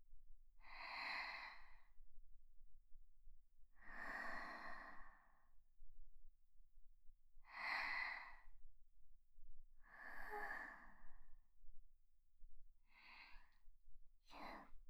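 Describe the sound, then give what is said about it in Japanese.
A young man takes deep breaths, loud and airy against near silence. Four long rushes of breath come a few seconds apart, then two quicker, shorter breaths close together at the end. “お兄さんどうですか。深呼吸して。”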